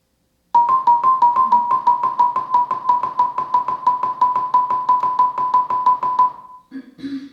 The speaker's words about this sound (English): In this test, the sine wave will alternate between two pitches that increasingly come closer to each other over time, up to the point where they cannot be told apart anymore. That will sound like this.